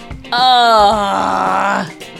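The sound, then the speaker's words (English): A single drawn-out human groan, voiced and loud, lasting well over a second before tailing off. It is a mock reaction to a pun, and no words are spoken. “Groan.”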